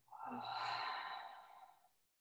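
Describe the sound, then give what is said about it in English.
A single long exhale through an open mouth during a guided breathing exercise, a soft breathy rush of about two seconds that swells and then fades away. “Open your mouth, exhale, let it go. Inhale, fill up. And exhale, let it go.”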